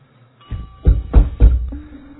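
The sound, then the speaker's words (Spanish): Knocking on a door: three heavy, low thuds in quick succession, preceded by a softer bump and followed by quiet. “En pocos minutos estaba llamando a la puerta de Pablo, el director, el dueño de la empresa.”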